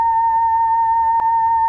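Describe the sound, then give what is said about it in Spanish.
Steady electronic tone from a photodiode box turning sunlight into sound during a solar eclipse, a pure mid-pitched hum with a faint higher overtone, constant and loud, broken by one tiny click. “Lo que acaban de escuchar es la luz del sol. Es muy sencillo, es simplemente una caja que consta de un fotodiodo que está en la parte superior y que transforma la iluminancia del sol en un sonido.”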